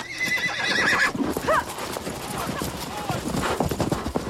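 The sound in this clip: A horse neighs in a sharp whinny, followed by hooves clip-clopping as riders set off across snow. Scattered hoofbeats continue after the neigh.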